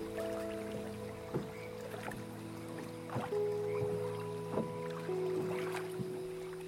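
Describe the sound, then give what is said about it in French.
A rowboat rocks on a lake, giving soft, irregular wooden creaks and light knocks over a steady low wash of water, with no voices. “Sur l'eau, les mouvements de balancier que crée la barque vous bercent et vous apaisent.”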